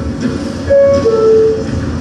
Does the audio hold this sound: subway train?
yes